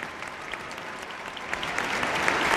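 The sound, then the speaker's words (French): A crowd cheers and applauds as the Pope steps down from the popemobile: dense, steady clapping mixed with cheers that swells slightly louder toward the end. “le Saint-Père qui va maintenant descendre de la Papa Mobile et qui est acclamé par la foule.”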